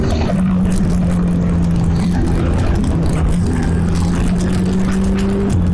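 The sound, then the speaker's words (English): Formula 1 racing car engine in a video game, a loud continuous droning whine that holds a steady pitch with small shifts up and down throughout, with no talk. “I'm in Formula 1, there's a helicopter above. Whoa, amazing, all that power under your fingertips and your feet.”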